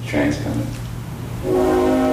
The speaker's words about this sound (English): Ravi Coltrane interrupted to point out the whistle of a freight train drifting up from the railroad tracks that run behind the house